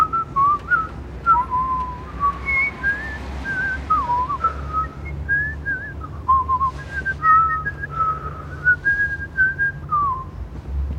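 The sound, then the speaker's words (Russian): People whistle a wandering, melodic tune of fairly high, shifting notes, with short phrases that rise and fall over a low, steady hum, and no talking. “Они свистят.”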